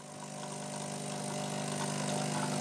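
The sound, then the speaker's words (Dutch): A coffee maker percolates in a forest ranger's hut at the De Kwade Hoek nature reserve in Zuid-Holland, a steady mechanical drone with a faint tonal hum that slowly grows louder, heard alone. “Zo, de koffie pruttelt al.”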